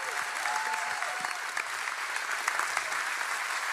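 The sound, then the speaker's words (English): A church audience applauds to welcome a pastor to the stage, giving a steady, even wash of many hands clapping with no pauses. “So, True North Church, put your hands together. Welcome Pastor Steve to the platform.”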